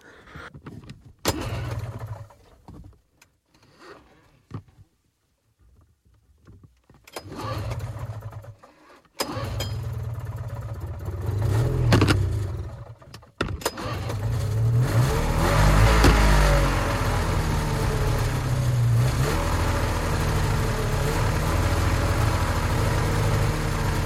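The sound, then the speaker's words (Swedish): A two-stroke engine idling, first sputtering in intermittent bursts with quiet gaps, then settling into a steady, loud, rough drone that holds to the end. “Idag ska vi lyssna på en tvåtaktsmotor på tomgång.”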